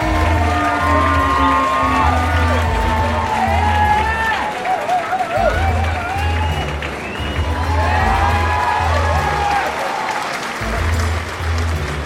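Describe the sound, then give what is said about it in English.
An audience applauds and cheers for the host of a library quiz night, loud continuous clapping with whoops and shouting voices running throughout. “Now, put your hands together for our host with the most”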